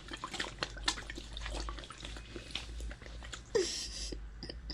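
Drink poured from a cup straight into someone's open mouth, with faint wet gurgling, sloshing and a few scattered drips, and no voices.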